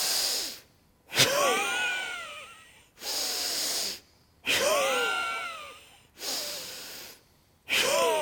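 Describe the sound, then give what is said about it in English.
Deep nasal breathing during a pranayama yoga practice: long hissing breaths drawn in and pushed out through the nose, alternating in a steady cycle with short silent gaps between them. “Keep the breath in the nose. Now let's begin, 10 rounds. Deep breath in.”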